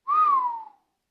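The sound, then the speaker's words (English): A person gives a single low whistle of admiration on stepping into a large garage. The smooth, clear tone lifts briefly, then glides downward and fades out, heard alone. “When he punches a code into the garage door and we step inside, all I can manage is a low whistle.”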